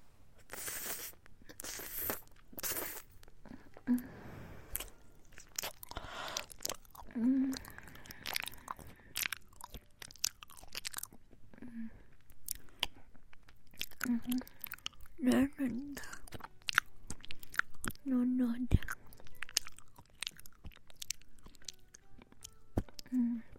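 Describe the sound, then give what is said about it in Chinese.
Biting into and chewing a sweet, soft banana close up: repeated wet, squishy mouth sounds and a few distinct bites over a steady stretch, with a soft voice in places. “好，姐姐来吃一口啊！第二口姐姐来吃。”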